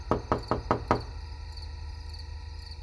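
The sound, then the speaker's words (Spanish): Knocking on an apartment door late at night: five quick, evenly spaced raps, fairly soft, followed by quiet with only a faint background hum. “¿Escuchas esos golpes, cariño? Parece que es en la puerta.”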